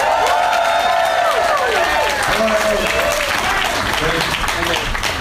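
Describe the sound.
An audience at Cobb's Comedy Club in San Francisco applauds and cheers for a comedian: continuous loud clapping throughout, with whoops and shouts rising and falling over it.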